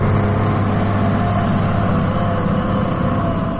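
Farm tractor engines at a farmers' protest in villages of Banat, Serbia, running as a steady, loud, low drone with a constant rumbling hum and no pauses.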